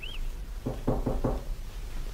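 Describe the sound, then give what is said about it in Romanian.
Knocking on a door: four firm, evenly spaced raps in quick succession, moderately loud over a steady background hiss. “Bate cineva în ușe”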